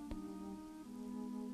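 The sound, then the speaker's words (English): Steady rain hiss under a sustained low tonal drone whose pitch shifts once partway through, with a single sharp tap near the start. “On the sounds, the wonderful sounds of the rain,”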